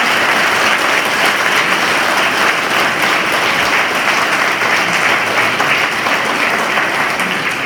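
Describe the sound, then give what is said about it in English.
A school audience gives Year 3 and 4 pupils a big round of applause, dense, even clapping that stays loud and steady from start to finish. “So let's give Year 3 and 4 a really big round.”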